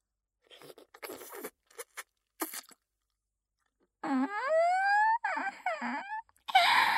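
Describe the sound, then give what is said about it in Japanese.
Wet mouth sounds of licking up saliva: a few soft, scattered smacking clicks, then a rising, moaning voiced sound mixed with more wet noise, and a brief burst of slurping at the end. “ほら、ちょっと濡れちゃった唾液を舐め取ってみると、”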